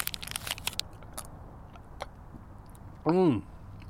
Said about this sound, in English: That's nice and crumbly. It can really taste the cocoa powder.